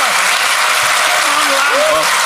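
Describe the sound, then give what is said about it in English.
A big round of applause from an audience makes a dense, steady roar of clapping that stays loud for over two seconds. Faint voices can be heard beneath it. “Let's give everyone a big round of applause.”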